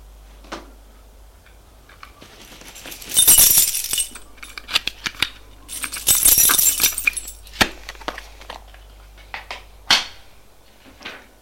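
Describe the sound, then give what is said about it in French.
A letterbox being opened, heard as a series of sharp metallic clicks and clinks with two louder rattling bursts in between, and no voices. “Elle va ouvrir sa boîte aux lettres.”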